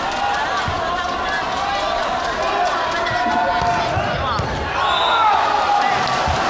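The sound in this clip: A powerful volleyball jump serve, which ends in a service error, is struck during a close professional match. The ball hits thud under constant loud crowd noise while a commentator talks throughout.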